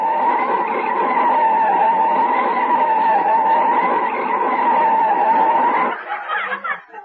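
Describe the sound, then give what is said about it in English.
Car tires skid and squeal as the car brakes hard to a stop at a street corner, a long, loud, steady screech that cuts off abruptly into a quieter, uneven rumble. “Of course, stop. Stop right on the corner of First Street.”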